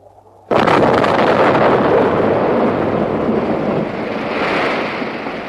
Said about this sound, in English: The dam's gone! Did you see that? It's gone! We've blown the dam!